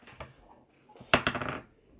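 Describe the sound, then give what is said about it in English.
A twenty-sided die rolled across a table, a short, bright clatter of a few quick rattling bounces after some faint knocks, then settling to quiet. “Now roll a d20 for how many?”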